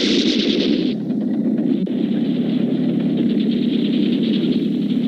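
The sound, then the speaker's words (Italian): Dense gunfire as German troops shoot at an Italian military position in wartime, a loud, continuous barrage of shots that forms a steady roar without clear pauses. “I tedeschi stanno sparando sulla nostra postazione, signor tenente.”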